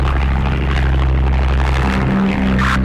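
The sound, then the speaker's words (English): Aircraft engines drone steadily in flight just after takeoff, a continuous low roar with a broad airy hiss. The level stays even throughout, with no voices. “Takeoff was so nice. Even the flight is very stable. It's amazing.”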